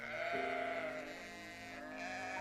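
A sheep from a herd of sheep and goats in the desert gives one long, wavering bleat. It is quiet and alone, with no other sounds around it.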